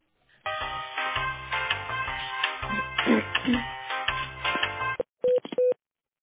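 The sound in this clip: Telephone dialing to connect a call: a busy run of layered electronic tones, then, after a short gap, two brief steady beeps.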